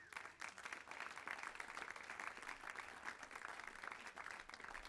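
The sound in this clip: Audience applause greets a speaker coming forward at an evening church gathering: dense, steady clapping from many hands that holds at an even level throughout and sounds faint.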